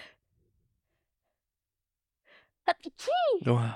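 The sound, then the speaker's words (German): A single sneeze: a soft intake of breath after near silence, then a sharp burst followed by a loud, voiced, drawn-out release. “warte, ich muss niesen.”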